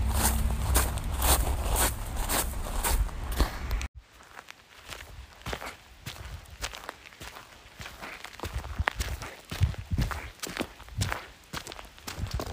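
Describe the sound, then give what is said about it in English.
Footsteps in shoes full of water after a swim, a steady rhythm of many soft squelching steps that continue throughout. “a short snippet of my squishy shoes as I walked away from that fun little swim. My shoes were full of water and they were squish squashing”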